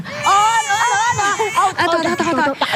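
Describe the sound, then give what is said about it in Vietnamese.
A baby cries in loud, wavering wails that break into shorter sobbing bursts toward the end. “Đừng có khóc nữa nha con.”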